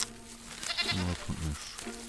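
A goat bleating: a couple of wavering, nasal bleats in quick succession over a faint background.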